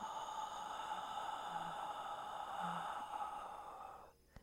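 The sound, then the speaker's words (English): Slow exhale during a guided breathing exercise. It is a soft, airy, steady breath lasting about four seconds before it fades, faint and with no talking. “Place one hand on your chest and one just below your rib cage and inhale through the nose. And exhale.”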